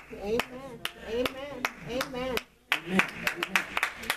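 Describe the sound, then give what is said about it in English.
A church audience claps in a steady beat during a Mother's Day service, with many sharp, evenly spaced claps over a voice, followed by a brief pause and a looser burst of claps. “Ooh, thank y'all. I'm paying y'all for those hand claps.”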